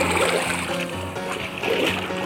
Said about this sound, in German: Und das Wasser fließt.